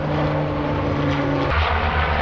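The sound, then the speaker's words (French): The loud, steady propeller drone of a Moroccan Canadair amphibious water-bomber, a firefighting aircraft able to scoop over 6000 litres of water. The engine noise fills the whole clip without a break, and no one talks. “Deux avions canadairs marocains, voilà la demande de soutien adressée par Lisbonne aux autorités de Rabat. Les canadairs, ce sont ces appareils amphibies capables de puiser plus de 6000 litres d'eau”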